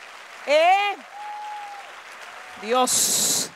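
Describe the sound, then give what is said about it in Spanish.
A church audience's applause breaks out briefly at the very end as a dense burst of clapping, following short stretches of raised, emphatic speech. “dale fuerte ese aplauso al Señor”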